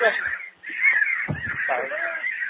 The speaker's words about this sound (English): so the birds have just invaded us, everyone.